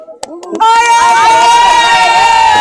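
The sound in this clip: APR FC football fans celebrating their team's 2–0 win over Metenseri, a few sharp knocks giving way to loud, sustained crowd chanting and shouting that holds steady to the end.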